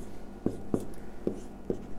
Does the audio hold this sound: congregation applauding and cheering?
no